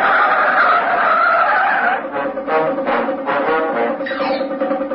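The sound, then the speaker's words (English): Tyres of a speeding taxi skid with a long, loud screech as it swerves violently, the squeal becoming pulsing and choppy in the second half. “The speeding taxi careers along South Union Street and swerves violently into Warmer Road.”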